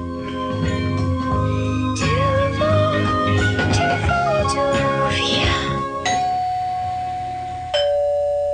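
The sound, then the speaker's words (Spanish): A doorbell chime rings over a dense, busy layer of sound, with two clear struck chime notes near the end, the second lower than the first. “Pero sonó el timbre”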